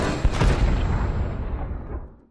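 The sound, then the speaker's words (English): Gunshots fired in a fight scene: a couple of sharp, loud cracks close together near the start, followed by a long, dense rumbling tail that slowly fades away. “So Roland then takes two last shots at poor Walter over here.”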